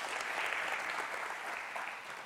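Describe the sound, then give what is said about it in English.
Applause from a church audience during a service: sustained, even clapping from many hands forms a dense, steady wash of sound that holds at the same level throughout. “Let's give them a hand right now. Welcome them into our midst.”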